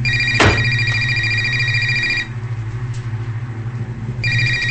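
A cell phone rings inside a woman's purse: two bursts of a bright electronic ringtone separated by a short pause, over a low steady hum.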